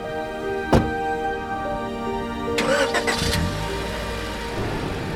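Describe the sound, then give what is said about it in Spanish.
An old van's engine cranks and catches after a sharp single thunk, then settles into a steady running hum, with a few quick starter bursts marking the start-up. “Mónica arrancó el motor del viejo furgón”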